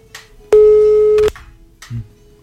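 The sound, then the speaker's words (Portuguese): Telephone busy tone after a dropped call: a single loud, steady tone holding for under a second, then cutting off and followed by a brief low thump. “Caiu a ligação outra vez, né?”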